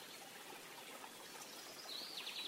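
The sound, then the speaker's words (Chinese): A small stream flows through a forest, giving a soft, steady trickle and gentle babble of water that stays faint and even throughout. “再一次将注意力带到小溪旁，”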